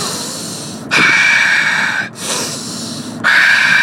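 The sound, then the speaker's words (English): Deep, slow breathing in and out: long, airy, hissing breaths that swell and ease in turn, each lasting about a second, loud and close with no talking. “I'm all about the deep breath. It's all about the breath.”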